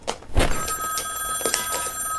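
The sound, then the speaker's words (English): A household telephone rings with a steady, bright electronic tone that holds through the whole ring, and a soft thump comes near the start. “The phone. I gotta jump over my bed.”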